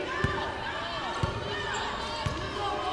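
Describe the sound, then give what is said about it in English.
A basketball dribbled on a court during a Raiders game gives three evenly spaced, low thuds about a second apart. The bounces sit under a dense, steady crowd roar and talk. “Saar works left on the dribble.”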